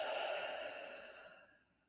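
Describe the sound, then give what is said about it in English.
A long, slow exhale during a breathing exercise, soft and slightly voiced, gradually fading away over about two seconds. “Inhale through your nose. And exhale”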